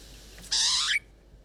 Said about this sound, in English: the Pied Butcher bird is one of my absolute favourites. So to say how much I enjoy hearing their calls